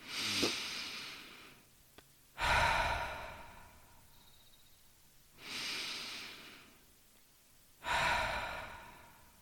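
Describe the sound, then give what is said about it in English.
Slow, deep breathing during a guided meditation: four long airy breaths that swell and fade as soft hissing rushes, with quiet pauses between them and no talk. “Now bring our awareness to our heart. Take two heart breaths.”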